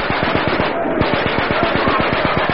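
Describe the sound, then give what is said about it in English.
Rapid machine-gun fire crackles at night along a wartime defensive line lit by star shells as Japanese troops try to infiltrate. A fast, even stream of sharp shots continues loudly through the whole clip without a break. “Hey, watch where you're firing, Bruce.”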